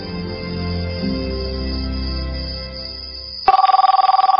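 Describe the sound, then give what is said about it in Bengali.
Ringback tone of an outgoing telephone call, a rapidly pulsing, buzzy mid-pitched tone that cuts in abruptly after a few seconds of music ends. “Wait, আমি একটা phone করে আসছি।”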